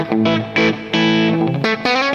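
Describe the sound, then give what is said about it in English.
Electric guitar played direct into a Kemper amp with reverb, no speaker cabinet, gives several short, bright, distorted chord stabs in a choppy rhythm, with rich sustained harmonics ringing between them. “Now, that's direct. There's no speakers. That's his. That's the Kemper amp direct.”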